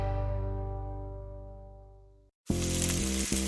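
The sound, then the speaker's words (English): Steak sears on a Weber Searwood pellet grill, the meat sizzling in its juices as a loud, steady hiss that cuts in abruptly after a fading tonal ring and a brief silence. “That's the sound of steak searing in its juices on your new pellet grill.”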